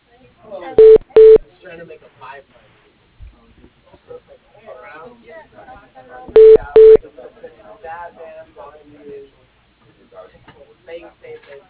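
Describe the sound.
Telephone keypad tones dial options in a company phone menu: two pairs of short, loud, steady beeps, each pair quick and even, with a recorded voice speaking between and after them.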